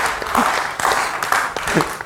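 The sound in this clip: Applause and cheering from a church audience acclaiming the Lord during a sermon: a continuous crackling wash of clapping, with voices rising over it in a few short bursts.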